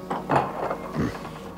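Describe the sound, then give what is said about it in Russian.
A door lock, suspected to be broken, is fiddled with: a few soft, uneven clicks and rattles of the mechanism sound in quick succession, fairly faint. “Что такое? Замок, что ли, сломался?”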